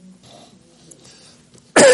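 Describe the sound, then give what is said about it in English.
A single sharp cough bursts out loudly at the very end after near-quiet. “In fact, I still have a little bit of this cough.”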